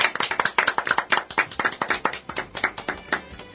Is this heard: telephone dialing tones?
no